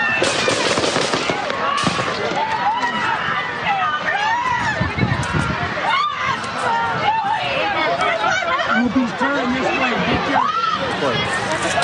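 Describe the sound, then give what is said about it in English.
Gunshots ring out amid a crowd: a few sharp, loud cracks cut through frantic shouting and commotion as people run. “And finally, the shots ring out.”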